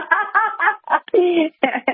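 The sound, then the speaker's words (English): Chickens cluck close by in a quick series of short, throaty clucks, broken by one longer drawn-out squawk before a few more clucks. “The chicken chick has been on my show a few times, and of course we're right out there with the chickens, so you can hear them.”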